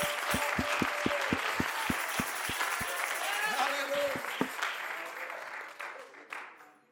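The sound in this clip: A church audience claps in a steady, even rhythm during a sermon. A short run of sharp claps is followed by a voice that continues over fading crowd noise.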